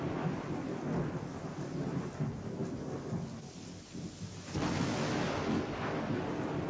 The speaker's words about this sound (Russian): Страшная буря с дождем, громом и молниями обрушилась на землю, все сокрушая на своем пути.